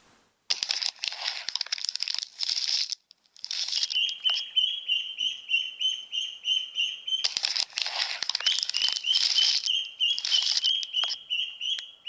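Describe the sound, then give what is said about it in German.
Newly hatched yellow chicks peeping, six of them, giving rapid, high, thin repeated peeps over crinkling and rustling noises, with bursts of scuffling at the start. “Als es soweit war, schlüpften 6 wunderschöne gelbe Küken.”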